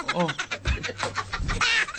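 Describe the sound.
Chicken clucking, a few short harmonic calls near the start, the first dipping in pitch, over a busy, uneven background.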